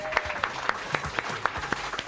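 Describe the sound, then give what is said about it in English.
Scattered applause greets a rugby league club captain at an evening event: faint, evenly spaced individual claps, about one every quarter second, over a quiet crowd background. “So, ladies and gentlemen, give him a round of applause.”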